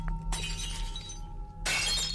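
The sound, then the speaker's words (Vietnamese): Cups and glasses knocked off a table by a gust of wind, falling and shattering in two loud bursts of breaking glass and crockery, the second crash longer and harsher. “Gió lùa vào bàn vong, bàn ghế uống nước, cốc chén, cứ thế mà rơi vỡ loảng xoảng cả lên.”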